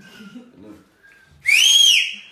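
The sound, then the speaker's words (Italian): A person whistles one loud, clear, sustained note that bends upward and then eases slightly down in pitch. It follows a faint murmuring voice. “Fischierò loro per riunirli. Immaginate a Dio che fischia.”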